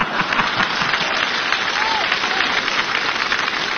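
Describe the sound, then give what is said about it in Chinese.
Audience applause at a live stage performance in Beijing in 2018. Dense, even clapping continues loudly and steadily throughout, with no clear individual claps or breaks. “来，我们掌声鼓励他往下说呀。”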